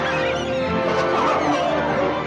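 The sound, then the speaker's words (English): Gulls take flight from a cannery roof in a dense, loud wash of overlapping squawking calls that stays steady and unbroken throughout. “The gulls atop the cannery suddenly take flight.”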